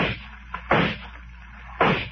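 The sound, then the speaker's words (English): A large sea creature's tail striking a raft in a dramatized scene: a few heavy, splashy thumps spaced apart, with a small knock between the first two and a low rumbling hum beneath. “Its tail struck the raft.”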